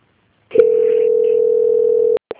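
Steady telephone line tone while a call is put on hold and transferred to a bank's quality control department: one continuous mid-pitched tone lasting about a second and a half, cut off by two short clicks.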